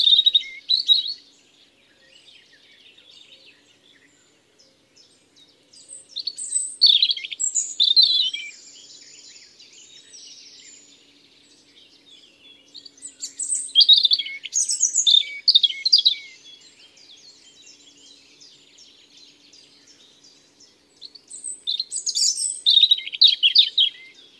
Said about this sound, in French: Le rouge-gorge, il chante à peu près toute l'année, lui. Il chante aussi en hiver. Il chante des phrases courtes, mais qui sont toutes, toujours différentes.